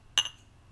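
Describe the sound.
Glasses meeting in a toast with alcohol-free beer, a single bright, high clink that rings briefly and fades quickly over a low hum.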